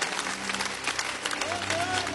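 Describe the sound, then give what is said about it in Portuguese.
Applause from a church audience at a Pentecostal service, dense and continuous for the whole stretch, with a faint whistle-like tone rising through the final second. “Com aquelas palmas bonitas para Jesus, vamos receber o pastor Milton.”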